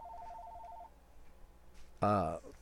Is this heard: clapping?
no